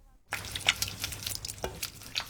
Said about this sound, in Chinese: 继续搅拌，直到白芝麻粉逐渐变成块状